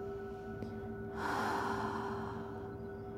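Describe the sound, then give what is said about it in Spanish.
A deep breath drawn in through the nose during a guided breathing meditation, rising into a soft, airy rush for just over a second and then fading, over a faint steady background tone. “Inhala.”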